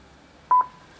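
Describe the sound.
A barcode scanner beeps as a parcel is scanned and assigned a pickup compartment, one short mid-pitched beep alone over a quiet background.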